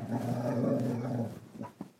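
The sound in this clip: Low, playful dog growl from a dog wagging its tail: a steady rumbling growl held for over a second, then easing into a few softer snuffles, faint and alone.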